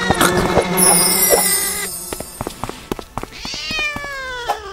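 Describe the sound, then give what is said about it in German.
Cat meowing in a video game: a few high, loud meows with clear harmonics. Sharp, repeated clicks are scattered among the cries. “zu viel die Katze hier im Ohr. Das ist ein blöder Bug.”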